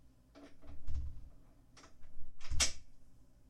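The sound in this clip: Door lock clicks and clunks as a door is locked: a few faint, short knocks and rattles spread over a few seconds, with no talking.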